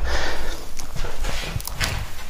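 Handling of a handmade ceramic mug: a few hollow knocks and clacks over a steady low rumble, with no talking.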